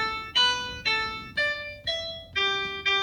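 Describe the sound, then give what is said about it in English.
A piano plays the notes A, B, A, D, E, G, G to spell "a bad egg": evenly spaced single notes, each struck cleanly and left to ring and fade. “You could play any word or phrase on a piano, provided it uses the first seven letters of the alphabet. For example, the clause, a bad egg, sounds like this.”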